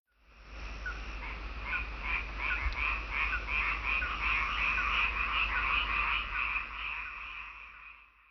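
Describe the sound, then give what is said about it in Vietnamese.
A frog croaks in a long, steady run of rapid, rattling pulses that fades in, holds at a moderate level and fades out, with no voices. “Đây là tiếng ếch kêu.”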